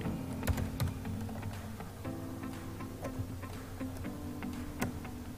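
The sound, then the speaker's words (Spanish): Typing on a computer keyboard to enter the word Word in the Start menu search: a few sharp, irregular key clicks, fairly faint over a low steady hum, with no talk. “mi menú inicio, voy a buscar el programa de Word, busco el icono de Word, si no lo tengo, lo voy a buscar, escribo Word.”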